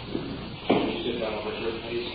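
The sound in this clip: A door opens as someone enters a courtroom. There is a single brief, soft thud near the start over a low, steady background.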